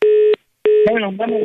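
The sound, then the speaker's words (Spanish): A telephone line tone after the call is hung up: a steady buzzing tone sounds, cuts off briefly, then resumes while a voice talks over it. “Ya colgó el teléfono.”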